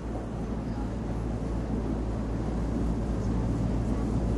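A ship setting off again from a stop at a harbour, heard as a loud, steady low rumble and broad wash of engine noise that continues without any clear break or change.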